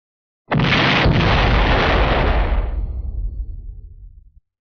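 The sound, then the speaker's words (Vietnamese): A huge explosion as a silver vortex bursts apart, a fantasy story sound effect: one sudden, loud blast that holds as a dense roar for a few seconds, then breaks into rumbling crackles fading away. “Lão vừa mới bay ra khỏi hơn nghìn trượng, sau lưng liền có một tiếng vang thật lớn truyền đến.”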